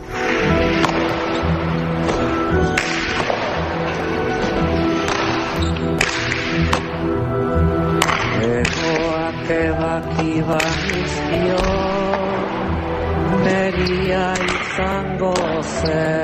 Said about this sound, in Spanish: Lo que suena es la banda sonora de La Pelota Vasca. Estamos ya en el género documental.